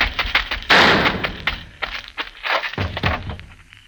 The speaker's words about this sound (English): Sam's one clean shot dropped the fleeing Chiano in his tracks.